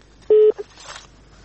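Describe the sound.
A single short telephone beep marks an incoming call. The clear mid-pitched tone is followed by a faint brief blip, then quiet.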